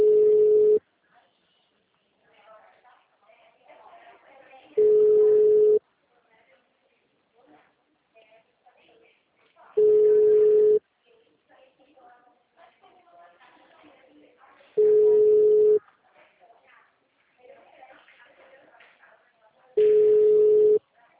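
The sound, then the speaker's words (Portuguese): A telephone ringback tone sounds while a call to the city hall connects: five steady, mid-pitched pulses, each about a second long and roughly five seconds apart, with faint low noise in the gaps. “Peraí que eu tô ligando na prefeitura.”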